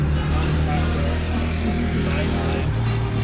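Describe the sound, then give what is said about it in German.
Traffic fills a hot, 30-degree city street in Freiburg with a steady, dense low rumble of passing cars and engines, continuous and loud throughout. “Wir lassen den kühlen Wald hinter uns und kommen runter in die Stadt nach Freiburg. 30 Grad. Hitze und Lärm erschlagen mich fast.”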